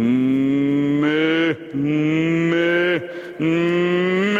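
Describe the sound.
A voice imitates a bull calf mooing in three long, loud, harmonic calls, each held steady and separated by short gaps.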